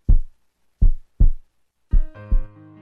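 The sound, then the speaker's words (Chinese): Heartbeat thumps: five deep, low thuds, the later ones falling into pairs, with sustained tones entering under the last two beats. “这是心跳的声音。”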